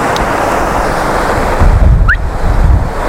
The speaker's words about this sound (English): there's some very cool shapes of the water moving over the rocks